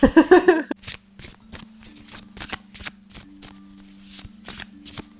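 Tarot cards being shuffled and handled: a quick riffling burst opens, then many crisp separate snaps and flicks of cards follow over a faint steady hum.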